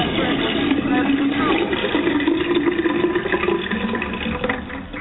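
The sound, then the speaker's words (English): A toilet flushes with a steady rush of swirling water that fills the whole stretch and eases slightly toward the end. “Somebody just flushed somebody down the toilet. Who was that? Who just flushed somebody down the toilet?”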